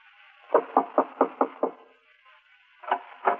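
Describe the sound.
Knuckles knocking on the wooden door of a poor settlers' cabin: a quick run of six evenly spaced raps, a pause, then two more firm knocks, clear and alone.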